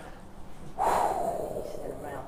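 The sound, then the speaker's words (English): A deep, collective intake of breath from an audience: a sudden loud, breathy rush begins just under a second in, then slowly tapers off over the next second and a half. “Everybody take a deep, deep breath.”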